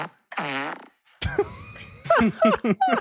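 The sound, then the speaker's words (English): A long, buzzy, wavering fart lasting about a second, loud and alone, followed by people talking. “I can smell the fart. When I hear it, it was so bad.”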